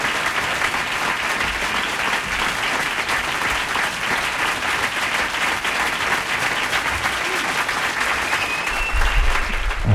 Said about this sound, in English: All that applause for me.